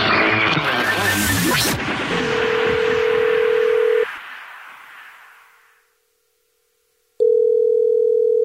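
A steady, low telephone dial tone sounds from an outgoing call placed to ring a caller back. It first follows a dense rush of noise, then cuts off into silence and comes back loudly at the end.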